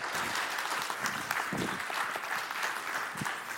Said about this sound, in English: So would you welcome Justin as he comes to preach this morning.